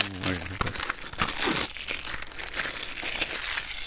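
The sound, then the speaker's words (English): Plastic wrap crinkled as a fire sound effect gives a dense, continuous crackling and rustling, with some talk at the start. “This is how they did fire sound effects in the olden days. As we sit close to the fire.”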